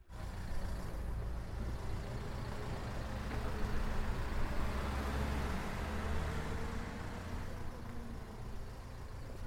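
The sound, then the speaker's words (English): A minibus being driven, producing a steady low engine and road rumble that stays continuous and even throughout. “I have been driving this minibus and I've just kind of dropped the last passengers off and uh, I am pretty much tired like the rest of everybody else.”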